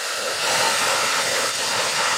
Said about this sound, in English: This is just a simple hair dryer you'd have at home and just a ping pong ball.